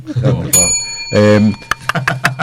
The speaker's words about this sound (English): So, ring the bell. We'll knock off. Ring the bell at 1 o'clock.